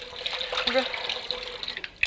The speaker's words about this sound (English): Let's run some water.